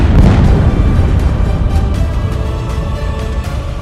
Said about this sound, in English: Let's drop some bombs!